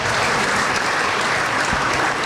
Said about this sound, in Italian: anche loro accogliamoli con un applauso per quello che fanno per noi ogni giorno